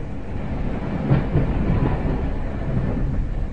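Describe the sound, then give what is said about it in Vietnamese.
A train moving off from a station makes a steady, loud low rumble with a dense, rattling clatter over it that holds an even level throughout. No voices. “Tàu chuyển bánh tiếng sục sịch nhanh dần.”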